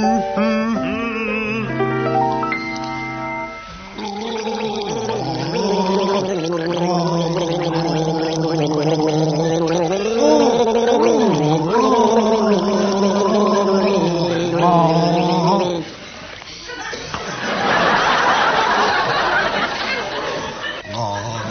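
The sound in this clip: Two men gargle a song with water in their throats, making bubbling, wavering tones that carry a tune in harmony. The sound is loud and continuous and ends in a burst of noisy chuckling.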